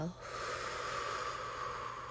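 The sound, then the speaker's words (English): Long, steady exhale during a breathing exercise before an affirmation: a breathy, hiss-like outflow of air that starts after a brief pause and continues evenly for about two seconds. “exhale. I gotta work on my lung capacity, okay?”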